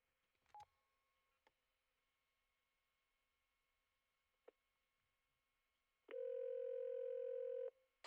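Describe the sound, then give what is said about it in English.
A telephone calling 411 directory information in Criterion, Michigan: a few faint clicks and short tone blips, then a loud, steady tone held for over a second. “Here's what happens when you dial 411 in Criterion, Michigan.”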